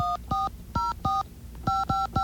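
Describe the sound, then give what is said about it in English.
Touch-tone telephone dialing: seven short, loud beeps in uneven groups, with pauses between the groups. “Let's get ourselves a nice friendly phone line here and make ourselves a reservation.”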